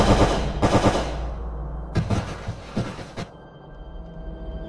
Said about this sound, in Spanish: venga, dispara! ¡Dispara!